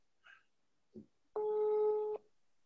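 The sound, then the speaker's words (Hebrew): Telephone ringing on a surprise call: two brief, faint blips, then one steady, buzzing tone lasting under a second, followed by silence. “זה ממש שיחה בהפתעה, אולי נעשה מזה פינה קבועה. הנה הוא. עכשיו הוא רק בוא נראה שהוא עונה.”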